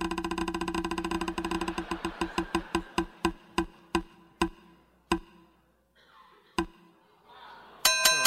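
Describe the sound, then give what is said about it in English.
A prize wheel spins, its pointer ticking rapidly at first, then clicking more and more slowly until the separate ticks die away, followed by a bright ding at the end. “Let's spin the wheel.”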